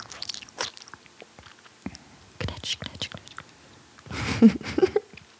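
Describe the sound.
Someone chews a piece of baguette, making soft crunches and wet mouth sounds in scattered bursts, with quiet whispered voices at times.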